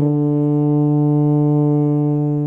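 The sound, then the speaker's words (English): A tuba blown through tightly pressed lips sounds one low, steady, buzzing brass note that holds loud and even for about two and a half seconds. “To make a sound, you have to press your lips tightly together and blow air through the opening of the instrument. Tuba, please.”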